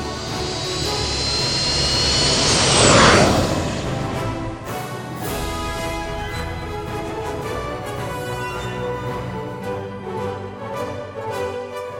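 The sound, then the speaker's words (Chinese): Jet engine roar for the takeoff of a fictional owl-shaped sonic aircraft, swelling loudly to a peak with a sweeping whoosh, then easing into a steadier, tonal drone. “上了猫头鹰音速飞行器 EP 六十七，启动开关，喷射出了大量的气体哦，准备起飞，出发！ 出发！出发！Go Go Go！”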